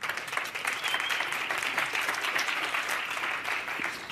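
An audience applauds as Satya Nadella is welcomed onto the stage at a technology event. The clapping is dense, even and sustained throughout, with no pause.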